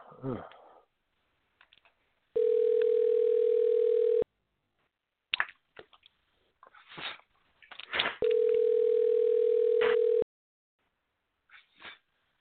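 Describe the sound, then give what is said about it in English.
Steady telephone dial tone while placing a call, heard as two long unbroken tones of about two seconds each, separated by clicks, handling noises and brief rustles on the line. “let me go ahead and dial old Ernie up”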